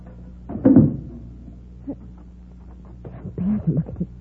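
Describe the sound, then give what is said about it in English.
A car trunk being unlocked and opened: a few short, low clunks and rattles separated by quiet pauses, with a cluster of handling noises near the end. “And here, take this flashlight and hold it on the trunk lock while I open it. You're going to open the trunk? Naturally. My tools and my spare tire are in there.”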